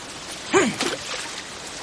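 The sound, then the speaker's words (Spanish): A stone hurled angrily into water makes a single brief plop, a short, faint splash with a small trailing ripple against a quiet outdoor background. “El joven agacha la cabeza a la vez que Thor se levanta y lanza con furia una piedra al agua.”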